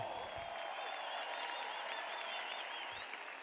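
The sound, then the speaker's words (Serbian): An audience at a TV show's birthday celebration applauds with steady, dense clapping that stays even and continuous throughout, fairly faint and without a break. “Ja ću vas zamoliti jedan veliki, veliki aplauz.”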